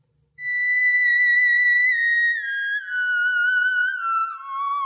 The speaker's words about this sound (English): So this is the sound of the theremin.